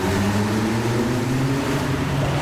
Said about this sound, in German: So, jetzt fahren wir mal kurz auf die Stadtautobahn.